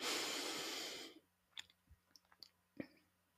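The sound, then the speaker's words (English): A single long deep breath sounds as a loud, airy rush lasting about a second, then gives way to a few soft, scattered clicks in near silence. “And let's take one more deep breath with love and gratitude.”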